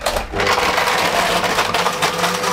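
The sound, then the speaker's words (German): A blender at full speed crushes four ice cubes with its lid on, giving a loud, steady whirring and grinding roar with gritty texture and no pauses. “So, und jetzt geht's ans Mixen. Yeah, Deckel drauf und an. Darf ich? Volle Stufe? Volle Pulle.”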